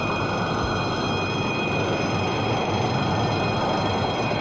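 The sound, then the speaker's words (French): Steady rumble of rail traffic inside the Part-Dieu train station in Lyon. A continuous broad wash of wheel and rolling noise with a few thin whining tones on top, loud and unbroken, with no voices. “Arrivé à la gare de La Part-Dieu,”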